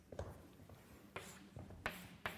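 Faint scratchy strokes of writing math on a board during a lecture on integrals, a few short brushing scrapes spaced apart, the last ones sharper and louder.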